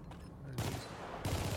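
Gunfire in the video game Helldivers comes as two bursts of rapid shots, the second starting soon after the first, fairly quiet overall.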